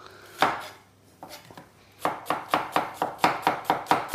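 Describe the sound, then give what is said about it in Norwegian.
A knife slices a red onion into rings: a few separate cuts, then a quick, even run of crisp chops, with no talk. “jeg syns det er godt med litt rødløk oppi, bare for å få litt løk igjen også. Den kutter vi bare i i skiver.”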